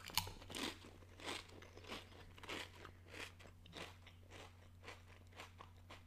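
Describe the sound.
Baby back rib flavored potato chips being bitten and crunched, a steady run of many dry, crackling crunches and chews, fairly quiet and with no talk.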